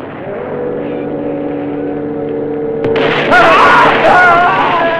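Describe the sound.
Gunshots ring out in a film shootout. A steady humming drone fills the first half, then a few sharp, loud cracks burst out one after another.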